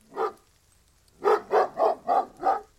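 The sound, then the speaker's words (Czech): A dog barks once, then after a pause gives five evenly spaced barks in a steady rhythm. The barks are mid-pitched and moderately loud, with no other sounds. “To je pes pana Vrchoty.”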